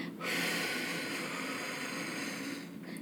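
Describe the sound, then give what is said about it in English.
A slow exhale through the mouth during a guided breathing exercise, a soft, steady, breathy hiss that lasts nearly three seconds and is heard alone. “we are going to exhale 6 seconds through our mouth.”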